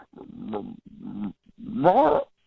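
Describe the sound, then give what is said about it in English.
A person growls and grunts in imitation of a dog trying to say a name, in three throaty vocal bursts. The last burst is the loudest and rises higher, like a revving engine. “After we met, I've been actually trying to teach my dog how to say your name. Let me see if I can do it the way he was doing.”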